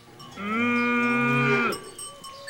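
A single long, steady moo from a cow licking her young calf clean. It is loud and clear, holds an even pitch for just over a second, and then stops abruptly.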